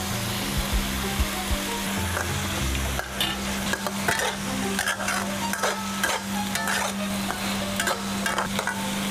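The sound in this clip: Fermented beef stir-fried with holy basil in a pan: a continuous loud sizzle broken by many quick scraping and clattering strokes of a spatula against the metal.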